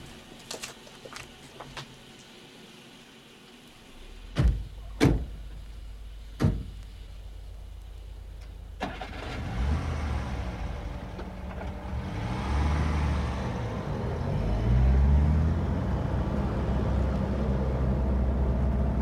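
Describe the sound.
A chauffeur's car: three sharp door slams, then the engine starts and the car pulls away, its low rumble swelling steadily louder. No voices are heard.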